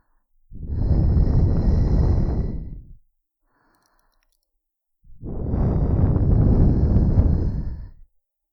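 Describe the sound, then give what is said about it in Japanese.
Two long, loud breaths are blown onto a microphone after it has been cleaned. Each is a broad, rushing gust of about two and a half seconds, with a silent pause between them. “こっちも最後に息吹きかけるね。”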